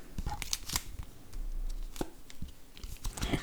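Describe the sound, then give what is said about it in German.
Playing cards being discarded and drawn in a tabletop card game, four put down and four taken up. Crisp slaps, flicks and papery rustles come at irregular intervals. “Also wir müssen vier Karten ablegen und vier nachziehen.”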